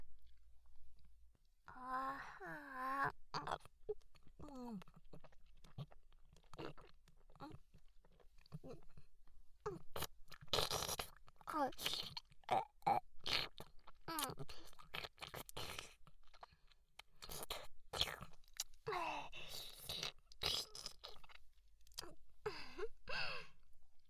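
Wet, close chewing of a bite of omelette rice: many soft squishy and crunchy mouth sounds in an uneven rhythm, with a few brief quiet vocal sounds between bites.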